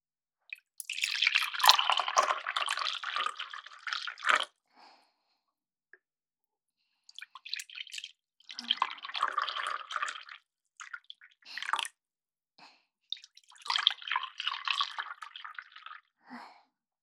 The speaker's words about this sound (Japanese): 今から召し上がるカップにお湯を注ぎます。温めることでより味わい深いコーヒーができるんですよ。